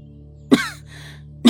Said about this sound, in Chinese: 一眼看到了门外站着的苏玲，忙要撑着手臂站起来。还连咳了好几声。